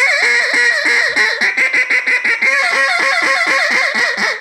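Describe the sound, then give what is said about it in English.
A hen mallard duck in Louisiana squealing: a rapid run of many loud, nasal quacks repeated in a steady, even rhythm, heard alone without talk. “So you can hear that duck that's got a piece of rice in Louisiana stuck in his throat, and she's squealing. It's not a he, I apologize. It's a hen mallard squealing.”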